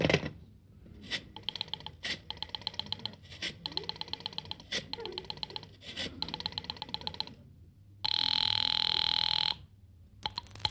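A telephone being dialed, heard as a run of rhythmic buzzy pulses in several bursts, followed by a steady high ringing tone lasting over a second, then a few more short bursts.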